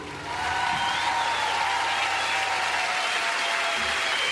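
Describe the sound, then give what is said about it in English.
Applause from a crowd for a sheriff: a dense, steady wash of clapping that swells in within the first half second and holds at an even level to the end. “Big round of applause to Jimmy Bob, Sheriff of Jennings.”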